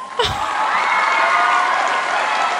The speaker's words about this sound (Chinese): 快点按一下掌声啊